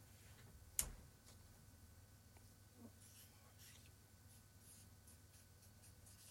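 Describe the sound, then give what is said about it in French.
Someone writing, faint scratchy pen-on-surface strokes scattered through a quiet stretch, with one sharp click near the start. “Là, il est en train d'écrire sur...”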